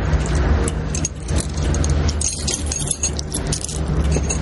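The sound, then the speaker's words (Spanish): Metallic jingle of keys pulled from a pocket and handed over in a thriller film scene, clinking and rattling throughout over a steady low rumble. “Boris saca las llaves del bolsillo y se las entrega.”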